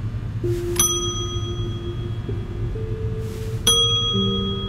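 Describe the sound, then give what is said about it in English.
A bell rung at a door sounds two bright, ringing dings a few seconds apart, each with a shimmering metallic tone that lingers and slowly fades, over a low steady background hum. “There was no one behind the window, so I rang the bell. No one appeared, so I rang it again.”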